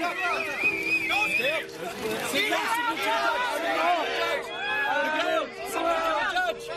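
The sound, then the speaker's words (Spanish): Excited crowd voices burst into lively shouting and chatter as Spanish freediver Miguel Lozano reaches 122 metres deep, a busy, moderately loud din of many people calling out together. “Me encanta el jolgorio. Lo que estás escuchando es el momento en el que Miguel Lozano, récord de España de apnea, lograba descender 122 metros bajo el agua”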